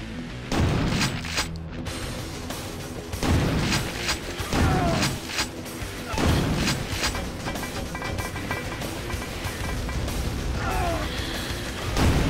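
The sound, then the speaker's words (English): Grenades explode in a video game with several heavy, booming bursts spaced a few seconds apart, laid over constant dense mechanical clatter and game noise. “Get hit by your own grenades, you idiot.”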